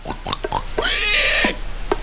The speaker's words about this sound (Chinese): 这两只野猪正在干饭，其中一只一抬头，这是啥？他打算看看。